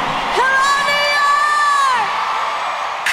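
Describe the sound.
Crowd cheering and whooping at a concert at Yankee Stadium, a loud continuous roar of many voices with a sustained high whoop standing out above it through the middle.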